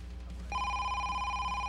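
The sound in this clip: An incoming telephone call ringing: after a short quiet hum, a single steady electronic ring tone starts and holds unbroken to the end, faint but clear.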